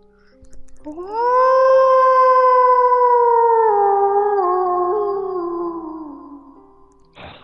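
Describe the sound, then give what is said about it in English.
A wolf howls at the moon in one long, clear, tonal cry that swells up, holds a steady pitch for several seconds, then slides lower and fades away. “Not far away, to the east, a wolf bays at the moon.”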